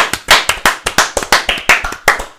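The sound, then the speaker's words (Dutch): Brisk applause for quiz winners: a small group claps many sharp, quick claps in an uneven but steady rhythm, with no voices. “En daar moeten we even voor applaudisseren.”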